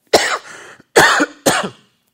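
Three sharp coughs come from a person who has swallowed wrong. The first two are longer and the last is shorter, each separated by a brief silence.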